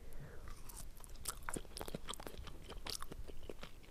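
Crunchy, wet chewing of a raw lime eaten plain without salt, made of quick irregular bites and mashing sounds that stay quiet and continue steadily throughout.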